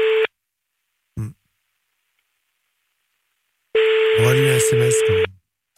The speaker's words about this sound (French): Bon, écoute, elle ne décroche pas